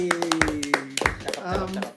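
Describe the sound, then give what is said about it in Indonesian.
A few hand claps greet a guest, sounding as sharp, irregular slaps over ongoing talk rather than as full applause. “Ini kita big applause dulu buat Yoga.”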